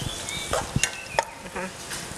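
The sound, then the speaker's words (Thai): Minced pork stir-cooking in a pan with a little water added: a soft sizzle under several sharp scrapes and taps of a utensil against the pan, with no talk. “อาจจะเติมน้ำในการลวนได้นะคะนี่ใส่น้ำไปเล็กค่ะหมูจะได้ไม่แห้ง”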